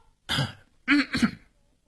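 A man clears his throat after pitching his song too high: one short rasp, then a pause and a longer double rasp, loud and with no talking.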